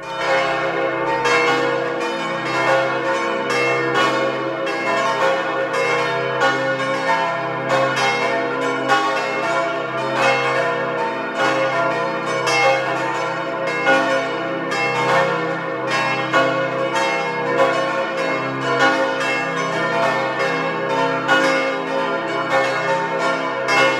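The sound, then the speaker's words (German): The church bells of St. Nikolaus parish church in Elbigenalp, in Tyrol's Außerfern, ring the noon peal. Several bells sound together in a dense, continuous, loud ringing for the whole stretch, with no voices. “Es ist 12 Uhr. Sie hören die Glocken der Pfarrkirche zum heiligen Nikolaus in Elbigenalb im Tiroler Außerfern.”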